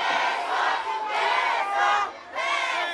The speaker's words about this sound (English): The rowdy audience demands a beso, kiss.